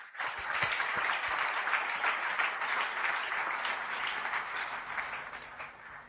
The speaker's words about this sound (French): Nous pouvons acclamer la parole du Seigneur.